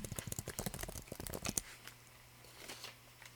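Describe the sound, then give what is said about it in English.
Quick typing on a computer keyboard, a dense burst of many light clicks that runs for about a second and a half, then stops, leaving only a faint low hum. “I typed in Sims icons.”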